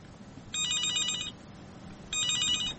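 A telephone rings twice as a listener's call comes in, each ring a bright, warbling electronic trill over a steady background hiss, with a short pause between the two rings.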